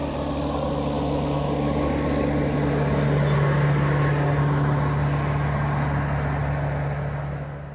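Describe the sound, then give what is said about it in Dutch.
A tractor drives on a bike path, producing a loud, continuous low engine drone with a steady hum that holds throughout and fades slightly at the end, with no voices. “Dat is de tractor op het fietspad.”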